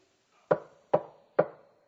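Three sharp knocks on a door, evenly spaced about half a second apart. Each one is a firm, hollow thud with a short decaying ring, loud and alone with no talk.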